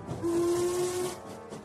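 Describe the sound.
A steam train whistle sounds aboard a moving train: one steady, low-pitched tone held for about a second over a soft hiss, fairly faint and alone.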